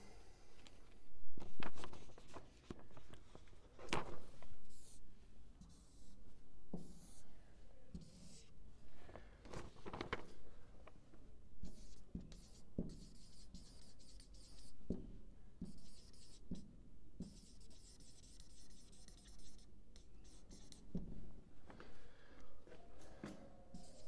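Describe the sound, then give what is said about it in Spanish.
Handwriting during a lecture course: many short, scratchy strokes and light taps in an irregular rhythm, fairly faint and steady throughout, with no talking over it. “voy a escribir todas las, las, partes aquí luego los explico.”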